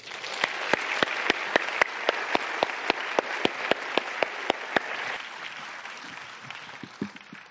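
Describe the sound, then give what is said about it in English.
Audience applause welcoming a guest speaker, with sharp, evenly spaced claps standing out above a wash of clapping before the applause thins and fades out near the end. “Please give a warm welcome to our guest, Shiza Shahid.”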